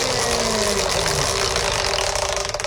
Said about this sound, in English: Let's see if I still have enough power to spin the wheel.